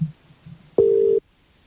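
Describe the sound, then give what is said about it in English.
A telephone tone as a call is placed: one flat, steady mid-pitched electronic beep lasting under half a second, coming after a brief low murmur and followed by quiet. “So let's make a phone call, shall we, to Lucan.”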